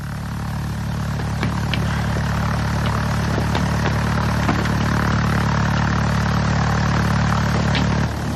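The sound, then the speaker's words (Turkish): An engine runs steadily in a constant low droning hum that neither rises nor falls, with faint clicks over the top and no voices. “Motoru durdurma.”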